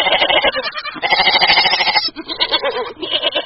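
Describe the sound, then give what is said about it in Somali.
Goats bleat loudly and constantly at a crowded livestock market in Mogadishu's Dayniile district, where animals are sold for Eid sacrifice. Many overlapping, wavering bleats of varying pitch form a dense chorus with only brief dips. “halkani waa suuqa xoolaha ee degmada Dayniile.”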